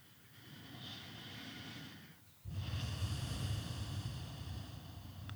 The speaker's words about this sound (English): Take a large inhalation and exhale slowly.